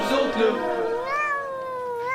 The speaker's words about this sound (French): C'est quoi ça? C'est un chat.